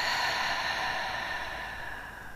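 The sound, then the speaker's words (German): A deep breath during a guided relaxation exercise, heard as a single long, airy exhalation that fades gradually toward the end. “Und nimm ein paar tiefe Atemzüge hier tief, tief ein. Und wieder aus.”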